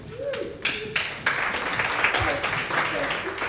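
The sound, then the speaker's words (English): An audience applauds at a celebration of Guyanese-British poets and storywriters, a dense steady patter of clapping that swells in a few waves and carries on throughout. “Please put your hands together again.”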